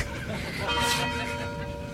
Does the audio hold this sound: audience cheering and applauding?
no